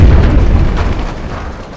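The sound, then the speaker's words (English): A grenade explosion: one heavy, low boom right at the start that rolls off into a long, fading rumble over about two seconds, with no voices. “Hey, what are you doing with that grenade? No! Stop! No!”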